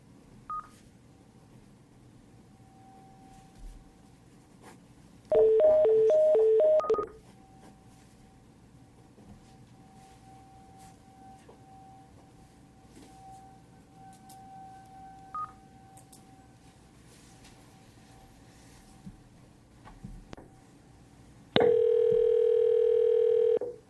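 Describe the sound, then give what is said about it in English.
Touch-tone dialing on a conference call: a short burst of dialing beeps, a stretch of quiet line noise, then a steady, loud dial tone at the end. “Next on the list is George Simic. I'll go ahead and dial them.”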